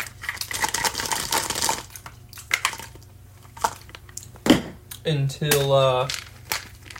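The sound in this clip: Crinkling and crumpling of medication packaging as someone handles it to take pills, a scattered run of papery crackles and crushing sounds, with a voice briefly heard near the end.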